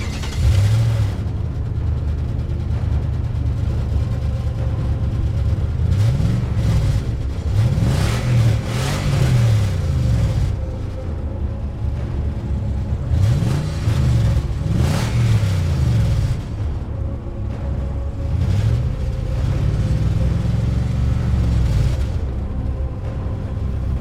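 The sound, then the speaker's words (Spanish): A car's thunderous engine revs again and again, its loud roar sweeping up and back down in pitch over a constant rumbling idle, with no voices. “Guardé la pala en el baúl, monté en él y arranqué el estruendoso motor.”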